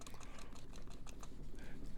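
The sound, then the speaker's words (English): Quiet, rapid typing on a computer keyboard: a fast, slightly irregular stream of many light key clicks that keeps up without pause. “I'm not Googling. I'm typing.”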